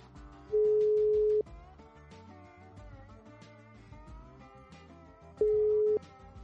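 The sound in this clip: Ringback tone of an outgoing telephone call ringing: two steady single-pitch tones, one near the start and one near the end, separated by a long pause, heard over quiet background music.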